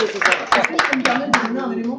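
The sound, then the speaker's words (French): An audience claps sharply and unevenly while people keep talking over it. Distinct hand claps cut through a steady run of speech. “Et là, on est en train d'applaudir.”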